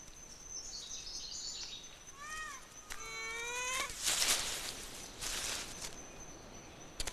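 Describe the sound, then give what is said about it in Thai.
Ring-tailed lemurs in Madagascar calling, several high, wavering meow-like wails and chirps repeating in short runs over a steady background hiss and a thin constant high tone. “ลีเมอร์ริงเทลอยู่กันเป็นฝูงบนเกาะมาดากัสการ์แต่ละฝูงต้องการดินแดนของตัวเองเพื่อเอาชีวิตรอด”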